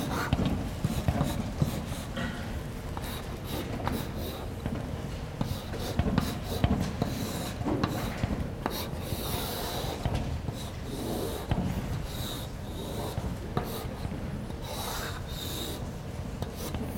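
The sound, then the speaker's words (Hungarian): Hand-drawing an example circuit network diagram: continuous scratchy rubbing strokes of a pen or chalk over a surface, steady and unbroken throughout, with no talk. “Azt a példahálózatot rajzolom föl, mint a korábbiakban is.”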